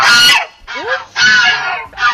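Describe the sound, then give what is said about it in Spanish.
Geese, kept as watch animals that raise the alarm, give a few loud, harsh, nasal honks in quick succession. “sean las ocas, que resulta que son las encargadas de dar el aviso si pasa algo extraño”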